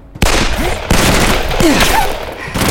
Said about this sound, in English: He drew his pistol and took deliberate aim at the man firing at them from the SUV.